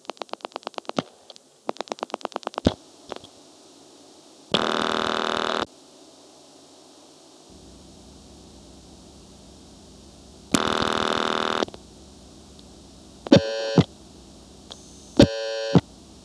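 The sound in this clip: A telephone being dialed with the number 5599 on an old switching line: two quick bursts of clicking dial pulses, then two sustained buzzing tones and a pair of short beeping tones, with no one speaking.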